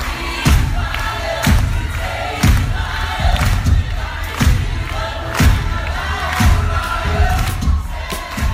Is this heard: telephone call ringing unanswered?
no